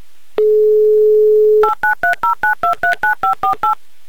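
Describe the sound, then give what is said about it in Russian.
A telephone number is dialed on a keypad. A steady dial tone plays first, then a quick, evenly spaced string of short two-tone beeps at varying pitches as the digits are pressed. “Сейчас я наберу ваш номер. Ваша задача – назвать шутку и стать богаче на 3000 рублей. Юрий, верим в вас всей страной. Набираю ваш номер.”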